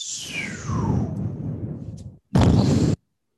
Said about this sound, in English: Drop a bomb on them.